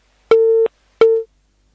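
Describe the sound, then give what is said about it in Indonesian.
A telephone busy signal after a dropped call: two loud, identical low beeps of equal pitch, separated by a short silence, with nothing else around them. “Qadarullah muter, putus sambungan teleponnya.”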